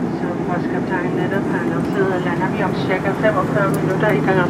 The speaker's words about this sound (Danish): Og vi begynder derfor at gøre kaminen klar til landing.